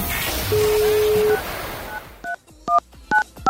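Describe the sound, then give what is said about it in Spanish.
A telephone number is dialed on a touch-tone phone. A hiss-filled stretch with a steady held tone gives way to a series of short, sharp two-pitch beeps at an even pace. “Marcamos al Instituto Milford para que nos cuente qué investigación tiene para el día de hoy.”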